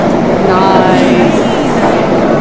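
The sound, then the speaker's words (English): A train passes with a loud, steady rumble and rattling rail noise that holds at full strength for the whole stretch. “Still a fair distance. Ignore the train.”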